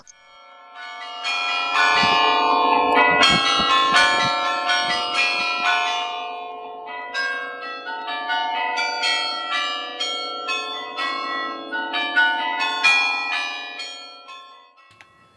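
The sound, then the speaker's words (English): Carillon bells ring from a carillon in Washington, D.C., given by the Netherlands: many loud, overlapping struck tones with long ringing tails form a continuous melodic peal, with no voices. “The Netherlands Carillon, a gift of freedom and friendship.”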